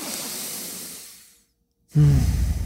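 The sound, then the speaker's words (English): Breathing during a breath-hold exercise: a long fading exhale, then a brief silence while the nose is pinched shut, then a sudden loud gasping recovery breath with a rough, voiced rasp. “So I'm going to be exhaling all my air, pinching my nose closed, and then at a certain time on the watch, I will regain breathing, and it sounds something like,”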